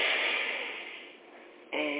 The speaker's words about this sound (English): Inhale deeply.